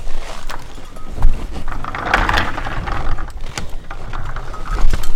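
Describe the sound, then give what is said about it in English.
Bells worn around the necks of reindeer milling in a herd clank and jingle irregularly, with many light metallic knocks and rattles over a continuous rustle of movement. “A few of the reindeer wear bells around their necks. That's the sound you're hearing there. I'm standing in a herd of reindeer.”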